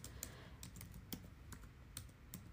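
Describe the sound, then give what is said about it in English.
Keys on a computer keyboard are typed in a quick, irregular run of soft clicks and taps, faint and with no voices. “And we'll type in Disney adult.”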